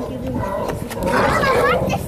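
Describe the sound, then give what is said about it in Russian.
Sea lions, with pups among them, give harsh, harmonic barking calls that rise over a dense, steady wash of noise. Voices are audible in the mix. “А вот, друзья, наши старые знакомые, наши корешки, наши морские львы.”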